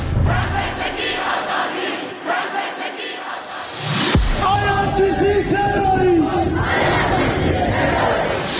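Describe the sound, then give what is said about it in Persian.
A crowd of protesters in Iran chants and shouts in a loud, sustained roar of yelling voices, broken midway by a single sharp burst before the massed shouting continues. “این صدای ملت ایرانه.”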